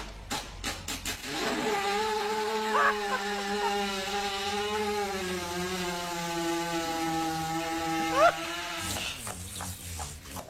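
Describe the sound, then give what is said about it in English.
A horse with digestive discomfort passes gas while lying on its side: a long, low, rasping buzz lasting several seconds, its pitch wavering slightly. A few short sputters come before it and after it. “So when they have digestive discomfort, what happens? They lie on their sides and just let one go. Here's a little sound bite.”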